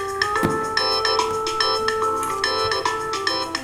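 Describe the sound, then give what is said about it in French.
A telephone ringtone of short electronic tones repeating in a quick rhythmic pattern, steady and fairly loud over a constant background hum. “Décroche ton phone. Décroche de ton phone.”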